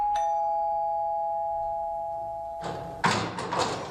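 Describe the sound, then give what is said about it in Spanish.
A doorbell rings once as visitors arrive at a home, a clear sustained chime that hangs for over two seconds. Bursts of clattering, shuffling noise follow near the end. “Veña, imos timbrar.”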